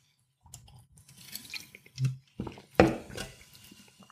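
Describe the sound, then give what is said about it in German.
Someone sipping from a can of Monster energy drink: quiet, wet slurping and a swallow, with a few soft clicks and no talking. “zu diesem Anlass werde ich jetzt auch einen Schluck von meinem Monster trinken.”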